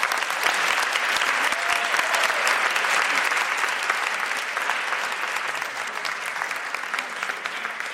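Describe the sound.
Audience applause greets two authors arriving on stage at a book event, a dense, sustained wash of clapping that holds steady throughout and eases off only slightly toward the end.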